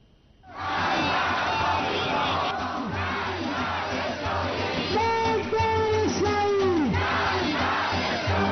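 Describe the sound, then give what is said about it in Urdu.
A massed crowd chants political slogans at a Jumu'atul-Wida rally in Iran supporting Palestinians. Loud, sustained voices start abruptly just after silence and hold throughout, with drawn-out shouted tones swelling in the second half. “اور امریکہ مرد آباد، اسرائیل مرد آباد کے نعرے ہر طرف گونج رہے تھے۔”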